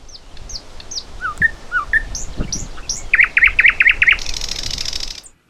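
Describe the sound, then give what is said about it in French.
Thrush nightingale song: clear whistled notes and short chirps, then a rapid run of repeated notes, ending in a loud, harsh, buzzing rattle. “Alors on va réécouter juste pour être sûr, donc le rossignol progné, c'est ça.”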